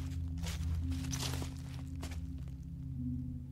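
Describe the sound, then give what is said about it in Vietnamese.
Footsteps crunching and rustling over dry leaves, a few irregular steps clustered early, then sparser treads, all set against a low, steady drone. “Tiếng chân dẫm lá khô lại vang lên xì xoạt.”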